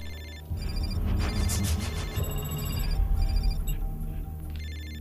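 A telephone rings with an electronic ringtone, its high tones repeating in a regular pattern over a continuous low rumble.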